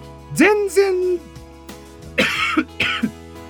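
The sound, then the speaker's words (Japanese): Two harsh coughs from someone just over a cold, coming after a brief voiced throat sound; the coughs land close together as loud, rough bursts near the end. “全然大丈夫なんですよって言った直後に咳2発は、本当に何の説得力もないんですけど”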